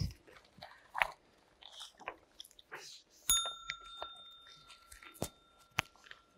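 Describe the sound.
A single bell strike rings out midway and holds a long, steady metallic tone that slowly fades, over scattered clicks and crunching noises before and after.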